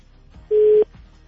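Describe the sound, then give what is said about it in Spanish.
Telephone line tone on an outgoing call, one short steady pure tone lasting about a third of a second, rising clearly above a faint low background murmur. “Vamos a ver a quién tenemos en la línea. A ver si contesta. Ahí va una.”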